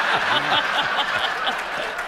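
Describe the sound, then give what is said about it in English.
An audience breaks into applause, a moderate patter of clapping mixed with scattered chuckles, while a voice talks over it. “Well, how often does Peter get that kind of applause? That's my question.”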